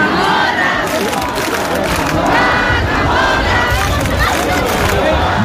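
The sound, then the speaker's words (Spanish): A huge crowd roars and shouts at the traditional centuries-old Cascamorras festival in Baza, with thousands of participants. Many voices blend into a loud, continuous din of yelling and cheering with no pauses. “17.000 personas participaron ayer tarde en la tradicional y centenaria fiesta del Cascamorras en Baza”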